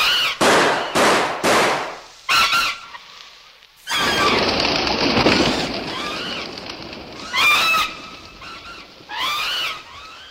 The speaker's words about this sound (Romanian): ține pușca și încearcă să-i țin la distanță. Am înțeles. Așa, Edward. Trage, Edward! Trage!